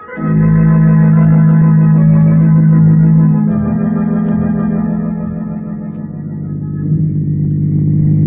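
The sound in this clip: Car driving, staged as a 1940 radio drama sound effect: a loud, steady low harmonic drone of the engine holds level, dips slightly midway and swells again near the end.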